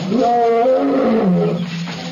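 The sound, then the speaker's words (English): A lion gives a single loud, deep roar of about two seconds. It climbs quickly to a strong, harmonic-rich peak, then slides lower in pitch and tails off into a rough growl. “approaching rapidly the roar of the lion”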